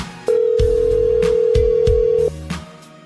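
A long steady ringback tone from an outgoing telephone call holds for about two seconds before cutting off, with a few low thuds underneath and a soft tail afterward.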